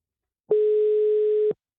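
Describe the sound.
A telephone ringback tone from an outgoing call: a single steady, mid-pitched beep lasting about one second, heard alone.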